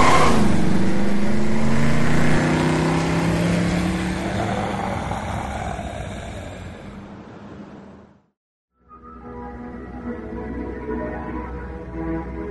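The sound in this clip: A car engine revs hard and accelerates, a loud roar with rising tones that fades somewhat, cuts out briefly near the end, then returns as a lower, steadier engine rumble.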